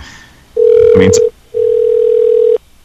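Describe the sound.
Telephone ringback tone: two long, flat, steady low-pitched rings separated by a short gap, loud, with a brief voice sounding over the first ring.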